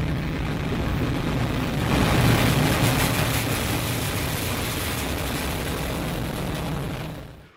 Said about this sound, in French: Décollage.